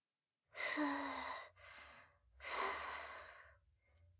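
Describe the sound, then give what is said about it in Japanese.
Someone blowing on hot food to cool it before feeding it: two soft, breathy puffs about a second each with a short pause between, quiet and alone, then a faint trailing breath. “暑いから、ふうふうするね。”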